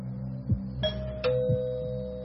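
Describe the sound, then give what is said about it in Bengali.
A doorbell rings with a two-tone chime. A brief higher note is followed by a lower, longer-ringing one over a steady low hum. “Calling bell বাজাতেই”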